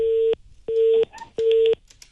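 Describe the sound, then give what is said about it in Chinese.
A telephone busy tone sounds after a call is hung up. It gives three steady, evenly spaced beeps at a mid pitch, each about a third of a second long, with short gaps of equal length between them. “他把这个电话直接挂掉了。”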